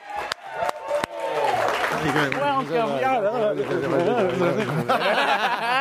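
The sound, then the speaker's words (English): Audience applause and cheering greet a comedian's entrance at a comedy show. A few sharp claps open it, then steady clapping runs throughout under rising and falling whoops and excited voices. “Ladies and gentlemen, put your hands together violently for Jonah Ray!”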